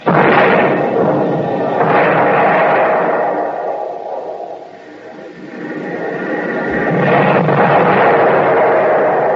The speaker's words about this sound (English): Spot down 250. Right 5. Fire.